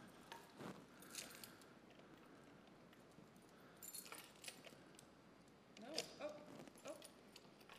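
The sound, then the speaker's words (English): A small key being tried in the lock of a box, heard as faint metallic jangles and clicks in a few short bursts over a quiet background. “It's a smaller key. Okay. It's a smaller key. Now let's see. Do you think that's the one? Okay, let's see if that one works.”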